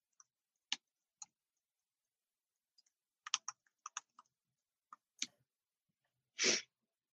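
Computer keyboard typing: faint, sparse key taps at an irregular pace, a few clustered together, ending with a longer soft brushing clack.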